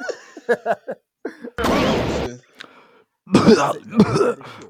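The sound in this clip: Coughing and throat clearing from bomb smoke: a few harsh, loud rasping bursts separated by brief gaps, with short bits of voice between them.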